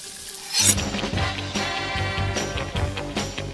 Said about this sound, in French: Et maintenant, faites rissoler le tout dans de l'huile chaude. Il faut bien remuer pour que l'anxiogène s'incorpore bien à la marinade, c'est important.